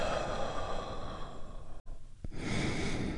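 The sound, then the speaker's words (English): A deep, healing breath exhaled: a long, breathy rush of air sustained for nearly two seconds, a brief pause, then more breathy air running to the end. “deep, healing breath right now. Here we go. And release.”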